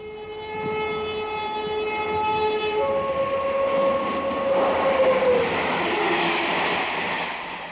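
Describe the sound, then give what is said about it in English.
A passing train sounds a loud sustained horn of several stacked tones. The horn drops in pitch partway through while a broad rushing rumble swells and then fades. “Trains. This is a train.”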